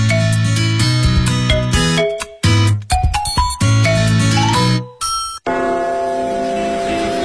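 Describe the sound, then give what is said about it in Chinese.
Big Ben clock bell chiming, a loud run of ringing, pitched bell tones struck one after another, ending in a denser, noisier sustained wash. “大本钟的钟声，记载着时间的流逝。”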